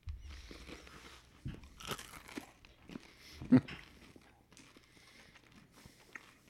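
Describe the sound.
Crunching on large, candy-coated chocolate candies. Quiet, irregular bites and chewing crunches are heard, with one sharper, louder crack near the middle. Faint voices may sound briefly.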